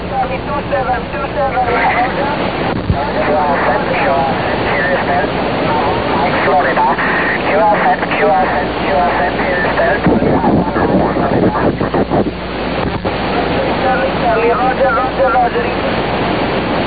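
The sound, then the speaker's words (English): Radio meteor scatter, with radio waves bouncing off meteor tails, comes through as continuous band-limited static carrying warbling, voice-like fragments that swell and fade throughout. “What you just heard was what is a phenomenon called meteor scatter, which is actually radio waves. Radio waves bouncing off meteors, if you can believe it, bouncing off the tails of meteors,”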